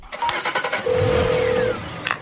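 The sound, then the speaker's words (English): A Jaguar car engine starts: a quick run of choppy cranking pulses gives way to a steady running engine note that holds for a moment before easing off. “He presses the car keys into Chloe's hand, then gets into his Jaguar.”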